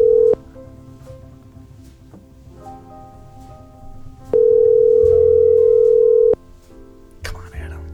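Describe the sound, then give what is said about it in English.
A telephone call rings out with a steady ringback tone: a short pulse at the start, then one longer ring of about two seconds, over a low continuous background murmur. “We'll give Adam a call. I hope he picks up.”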